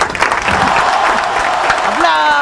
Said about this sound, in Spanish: ¡Aplausos para Nahuelita!